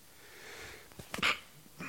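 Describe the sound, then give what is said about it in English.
A single human sneeze, with a couple of quick catching breaths leading into one short, sharp nasal burst, fairly faint and with no talk. “It's horrible when you can feel a sneeze coming on and you just can't tell when it's coming. I've been feeling that one for about 30 seconds.”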